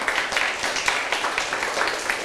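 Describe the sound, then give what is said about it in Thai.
Children clapping their hands during a rhythm exercise, many overlapping claps that fall unevenly with no steady beat, at a moderate level throughout. “แบบนี้เป็นจังหวะไหมคะ เป็น ไหมแต่เราปรบไม่เท่ากันนะ”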